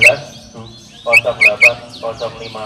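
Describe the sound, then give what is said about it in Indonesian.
A white-rumped shama (murai batu) singing, with sharp, high whistled notes and chirps in quick clustered bursts over a steady low hum. “Murai batu A nomor gandangan”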